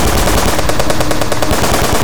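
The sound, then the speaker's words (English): Automatic sentry guns fire in loud, continuous, rapid bursts, with dense repeated shots filling the whole stretch without a break. “My first step will be to exterminate you all, activating automatic sentry guns.”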